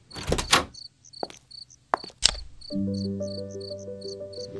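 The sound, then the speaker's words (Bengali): A door being opened: a few clattering bumps and sharp clicks, then a steady tonal hum sets in, with insects chirping faintly throughout. “Bell বাজানোর দরকার নেই তুমি দরজা খোলো”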